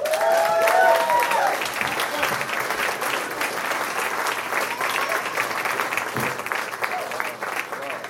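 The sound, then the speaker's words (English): Audience applause greeting a comedian as he is brought on stage at a live comedy show, dense clapping sustained steadily for several seconds at a fairly even level. “Give it up for Dave Maher.”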